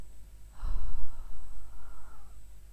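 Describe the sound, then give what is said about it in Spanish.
A person takes one slow, soft breath in and out during a short breathing meditation. The airy breath swells and then trails off gently, alone with no talk. “Inhala una vez más y exhala.”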